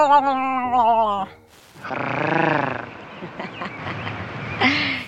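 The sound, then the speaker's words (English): A human voice imitates a cat's purr without a rolled tongue, producing a sustained, growly, buzzing rumble for about a second after a short vocal phrase, followed by breathy, lower-level vocal sounds. “she had this signature purr that she would do in every episode. I will try and recreate it for you, but she rolls her tongue, and I can't roll my tongue.”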